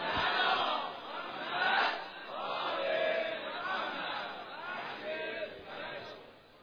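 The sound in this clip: A crowd at a religious gathering celebrating the birth of Imam Zaman loudly recites salawat in unison, the massed chanting voices swelling and receding in several waves.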